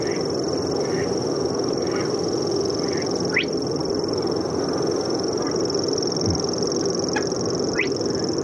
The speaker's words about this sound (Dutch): Heel zachtjes, daar komt hij. Hij zit nog een beetje ver weg, die springkraan zanger. Dat is ook een typische nachtzanger.